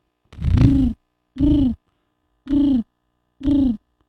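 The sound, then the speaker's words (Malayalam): Pigeon cooing: four low, hollow, throaty coos, evenly spaced with clear pauses between them. Each coo is a short, steady note. “പ്രാവ്.”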